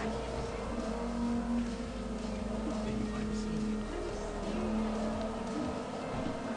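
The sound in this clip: Car engine accelerating in a racing video game, a steady droning engine tone that runs throughout with only small shifts in pitch.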